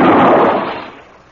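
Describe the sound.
A single loud handgun shot fired during a tense confrontation in a drama, a sharp blast that rings out and fades away over about a second.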